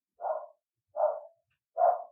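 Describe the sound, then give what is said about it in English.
A dog barks three times, each bark a short mid-pitched burst spaced evenly apart and clear with no talking over it. “listen to my dog bark.”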